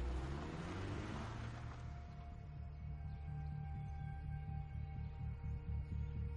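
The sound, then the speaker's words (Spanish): A car driving away after a travel bag is loaded into its trunk, heard as a steady, low engine rumble with a faint hum that holds at an even level throughout. “Mira cómo el coche se aleja.”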